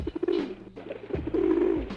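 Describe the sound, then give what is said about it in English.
Pigeons coo in a few soft, low, rounded phrases with short pauses between them. The calls are heard alone, with no voices over them. “There are an estimated 400 million pigeons in the world. 1 million alone in New York City.”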